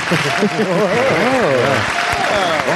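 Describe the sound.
Applause after a live musical performance, a dense steady wash of clapping with voices cheering and calling out over it throughout.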